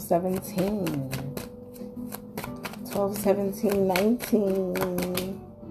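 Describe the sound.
Tarot cards shuffled by hand produce many crisp snapping clicks in quick bursts, with a voice speaking over them throughout.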